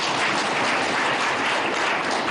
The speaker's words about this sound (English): they deserve a round of applause